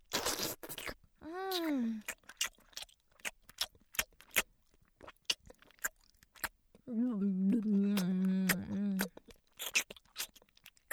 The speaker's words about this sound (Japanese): 黙って食べよ。食事は楽しいもんだよ。